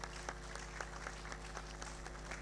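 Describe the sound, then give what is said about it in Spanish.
Audience applause sending off a young violinist at a public event: dense, even clapping with scattered sharper claps, fairly faint and continuous, with no voices over it. “Despedimos con un fuerte aplauso a la joven María Belén Vareiro Rolón”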